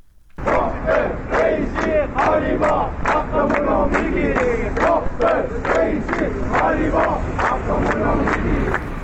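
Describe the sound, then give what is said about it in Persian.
Crowd of retirees protesting in Ahvaz, chanting slogans in unison: loud, rhythmic shouted phrases pulse steadily, one after another, with a dense mass of voices behind them. “این صدای گروهی از بازنشستگان در اهواز است.”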